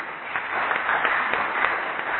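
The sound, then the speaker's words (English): An audience at a formal session applauds two presenters with steady, dense clapping that holds at an even level throughout, with no voices over it. “let's give the both presenters a good round of applause.”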